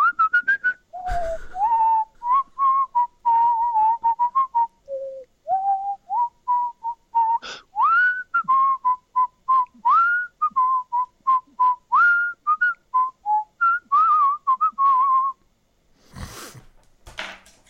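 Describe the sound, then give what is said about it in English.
A person whistles alone, a long run of many short, clear notes that move up and down in a lively, uneven rhythm. The tune stays mostly in a middle whistling range. “A single eighth note, which, as we all know, sounds like this.”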